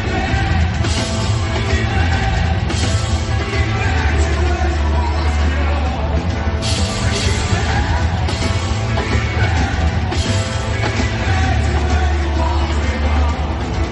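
Live stage concert recorded from within the audience: a loud, dense, murky wash of amplified music and crowd noise with occasional yells, continuous and harsh throughout.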